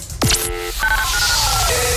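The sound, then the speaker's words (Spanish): Telephone keypad dialing tones set into a busy radio jingle: a swooping electronic effect, then a few short beeps at different pitches over a dense, bright music bed. “A marcar en este momento.”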